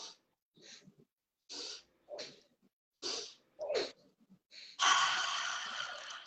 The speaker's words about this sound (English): Inhale here. And then inhale here. Hold it for a second. Then exhale everything. Again. Inhale.